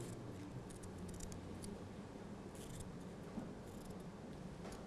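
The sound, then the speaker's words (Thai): Faint snips of scissors cutting the tip off a banana leaf, a few short crisp cuts barely rising above a steady hiss of background noise. “เราก็จะตัดปลายของใบตองออกค่ะ”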